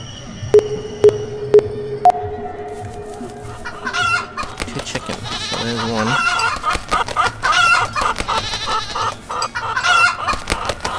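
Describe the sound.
Cartoonish chicken clucks from a farm-animal collecting video game: a few short, evenly spaced electronic tones come first, then busy, repeated clucking and squawks continue to the end.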